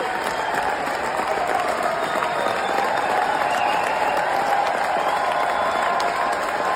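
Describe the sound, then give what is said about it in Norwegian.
Sustained applause and cheering from an audience at the close of an operetta, a dense, steady wash of clapping and crowd noise that holds an even loudness throughout. “Og, altså, åpenbart ikke, kan vi bare høre på den jubelen en gang til.”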